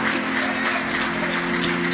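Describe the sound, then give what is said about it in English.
A church audience claps hands in praise, a dense, continuous wash of applause at an even, moderate level with no break or individual claps standing out. “Give the Lord a big hand clap of praise.”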